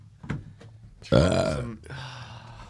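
A single loud, drawn-out burp with a rough, croaky tone rasps out after a few faint sounds, then trails off into a quieter rumble.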